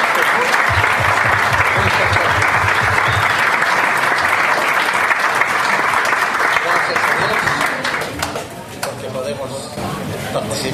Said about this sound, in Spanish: yo pido un aplauso a los varones, a todas las damas que están acá.